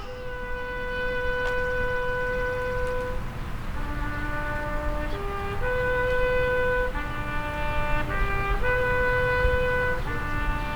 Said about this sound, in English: We will now honor our departed veterans with the rifle salute and the taps.